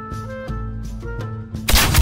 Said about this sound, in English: Your opponent used steady shot. Hero power deal 2 damage to the enemy hero.